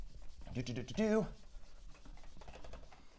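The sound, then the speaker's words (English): An eraser wipes writing off a board in scratchy, scrubbing strokes that rise and fall, with a person talking briefly over the rubbing. “Now, let me erase this here.”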